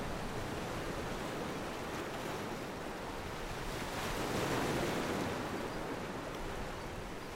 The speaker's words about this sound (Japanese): 気がつくと僕は砂浜に漂流していた。